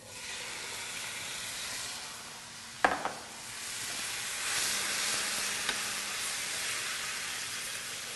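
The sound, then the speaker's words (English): Black beans with chili powder and cumin cook in a pan with a soft, steady sizzle and hiss, broken by a sharp clatter of a utensil partway through and a faint tap later. “so I'm gonna cook these for, well, I don't know, 5 or 10 minutes, incorporate some nice flavor here, and let the black beans break down a little bit”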